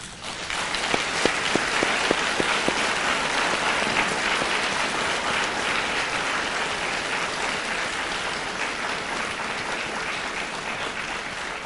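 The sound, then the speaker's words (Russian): An audience applauds doctors with loud, sustained clapping. A few distinct claps stand out at the start before the sound settles into a dense, steady roar that carries on for over ten seconds. “Давайте похлопаем врачам.”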